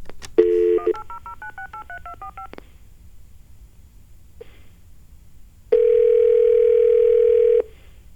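Telephone keypad tones dialing a 1-800 number: a brief steady tone, then a quick run of short beeping key tones. After a pause comes a loud, steady tone held for about two seconds, with no voices.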